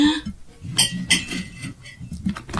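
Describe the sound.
A few sharp clinks of a plate and cutlery as cinnamon-and-cardamom pancakes are stacked onto a single plate. Bright, short knocks stand out over low kitchen bustle.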